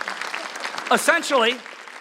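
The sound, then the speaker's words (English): Audience applause, a dense steady patter of clapping lasting about two seconds, with a voice speaking over it in the middle. “Can you guys give these guys a round of applause?”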